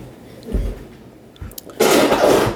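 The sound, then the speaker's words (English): A child sits on a whoopee cushion, which lets out one raspy, blaring burst lasting under a second. A few faint low thumps come before it. “What was that? That was a whoopee cushion. No, it is my beautiful. My grandson just sat on a whoopee cushion”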